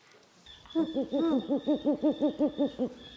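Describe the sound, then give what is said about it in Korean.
A horned owl hooting in a quick, even series of many low hoots with a steady rhythm, alone over a faint high background tone. “그 다음에 부엉이 종류. 부엉이. 밤만 되면 눈이 동그랗게.”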